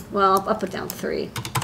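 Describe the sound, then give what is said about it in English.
Numbers are typed into a boost-converter design tool on a computer keyboard as a quick run of light key clicks. A voice briefly sounds among the taps. “And this is my best, this is my favorite part of being an engineer, just type in some numbers.”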